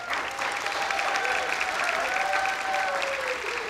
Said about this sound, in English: And weren't they great, audience?